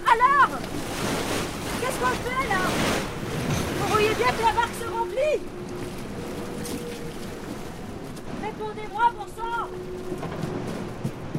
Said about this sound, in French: Autour de nous, les lames sont si hautes que je n'ose les regarder, de peur de voir la crête s'abaisser et la vague déferler sur nous.